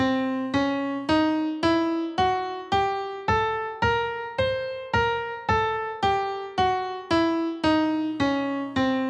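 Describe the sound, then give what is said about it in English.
An octatonic scale of alternating half and whole steps, played as a steady, even series of bright, harmonically rich notes that climb and then descend, each note with a sharp attack and a quick decay. “The half whole octatonic scale sounds like this.”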